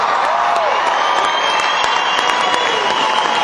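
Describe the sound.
A Nashville concert crowd applauds and cheers as a band is welcomed to the stage, a steady, loud wash of clapping with shouts mixed in that holds evenly from start to finish.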